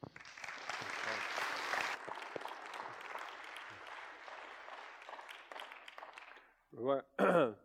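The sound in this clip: Audience applause at a church welcoming a guest speaker, dense sustained clapping that gradually thins out, after which a voice begins speaking.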